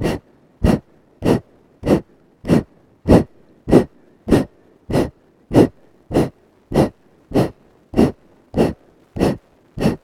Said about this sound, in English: Exhale, two, three, four. Exhale, six, seven, eight. Keep the chest up, two, three, four. Shoulders stay down, six, seven, eight. Blow out as much air as possible each time.